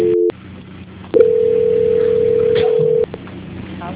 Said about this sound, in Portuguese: Só um minutinho que eu transferir para a auditoria. Transferência.